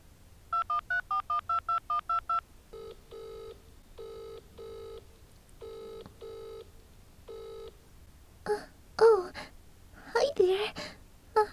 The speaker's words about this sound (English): He gave me his number. I'm going to call him.